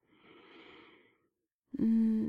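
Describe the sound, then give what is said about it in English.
A deep breath taken during a guided relaxation: one long, soft, airy breath of about a second, then a brief pause before a louder, steady, low voiced tone. “take one deep breath once more for me”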